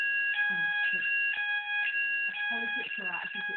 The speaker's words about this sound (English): that. I think it's the test. There's some fire alarm here. I think that might have been a fire alarm test.